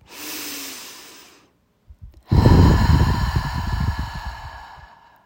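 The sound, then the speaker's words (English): A deep breath is drawn and released as airy, hissing breath noise in two parts split by a short pause, the first softer and fading, the second louder, rough and sustained. “Use your breath as a tool to stay focused, calm, and present. Let's all take a deep breath.”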